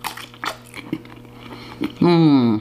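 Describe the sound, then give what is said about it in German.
Eating hot frankfurter sausages: soft, moist bites and chewing sounds in a few irregular bursts, then a voice starts talking. “Jetzt muss ich aber schnell mehr Frankfurt essen, sonst werden sie mir kalt.”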